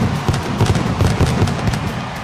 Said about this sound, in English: they love the fireworks. They love the pyro there.